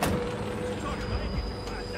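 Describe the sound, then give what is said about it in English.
Busy street traffic from a congested road of bumper-to-bumper cars: a steady, dense wash of engine rumble and road noise that holds at an even level throughout, with faint thin tones running through the hum. “makes his way across a congested street of bumper-to-bumper cars.”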